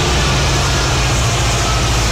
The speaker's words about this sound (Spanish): Uno, dos, tres, cuatro, cinco, seis, siete y así hasta 30 vagones impulsados por dos locomotoras que pasan sin parar y que transportan, vaya usted a saber qué.